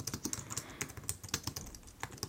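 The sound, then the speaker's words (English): Quiet typing on a computer keyboard while an order is entered at a store counter: a soft, irregular run of many key taps with short pauses between bursts, and no voices. “Let me go ahead and type that in.”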